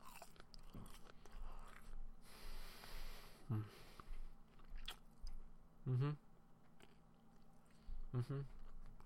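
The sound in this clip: Chewing on sausage, with soft wet biting and mashing sounds and a few brief vocal murmurs, all faint over steady background noise.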